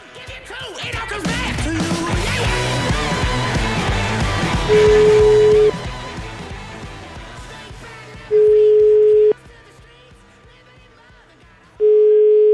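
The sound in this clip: Telephone ringback tone on an outgoing call to a mayor: three steady, mid-pitched beeps, each about a second long with pauses between. They sound loud over background music, which drops in level after the first beep.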